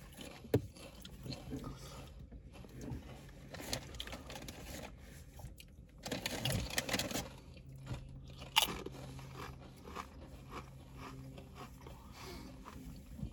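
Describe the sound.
Salt and vinegar potato chips crunch between the teeth: many irregular crisp crunches and chewing sounds over several seconds, with a louder burst of crunching near the middle and no talk.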